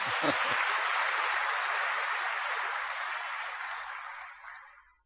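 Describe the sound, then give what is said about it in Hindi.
An audience at a spiritual talk about Baba claps for itself, a dense, steady wash of applause that holds for several seconds and then thins and fades away at the end. “फिर अभी ताली बजाओ अपने लिए आप।”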